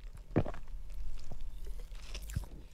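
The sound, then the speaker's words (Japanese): Crunching and chewing of a Sakuma strawberry-milk hard candy: a few sharp, crisp bites with softer mouth sounds between them, close and fairly quiet. “いちごミルクっぽい 匂いです。飴の匂いがする。いただきます。 サクマキャンディーで、”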